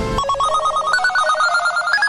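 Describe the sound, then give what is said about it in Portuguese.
A loud electronic telephone ring for an incoming call warbles rapidly between two pitches, continuous throughout, with the tone stepping higher partway through. “estão ligando aqui pra mim”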